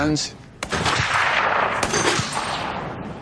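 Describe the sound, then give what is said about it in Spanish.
Six M3 .50 caliber machine guns firing together from a Sabre jet warplane, a loud, dense, sustained rattle of rapid fire with a couple of sharper cracks standing out. “Al disparar las 6 ametralladoras a la vez, sentías el tirón. El avión frenaba por el retroceso que todo el avión absorbía.”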